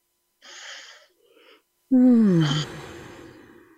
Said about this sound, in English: That feels so lovely. I have another nice deep breath into that.